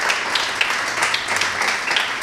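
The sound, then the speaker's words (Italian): Audience applause greeting a guest at a business event: a steady, dense wash of many hands clapping at even loudness for the whole stretch. “vi chiedo di accogliere con un bel applauso Vittoria Gozzi”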